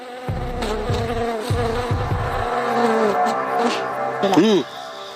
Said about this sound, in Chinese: 葡萄成熟的季节，我们这个棚里面啊，就好多蜜蜂和马蜂，你就会听到嗡嗡嗡嗡的声音。